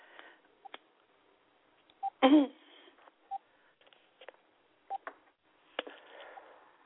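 Phone keypad tones as a number is dialed, a few short, separate beeps spaced irregularly, with one louder, broader burst near the middle and quiet gaps between.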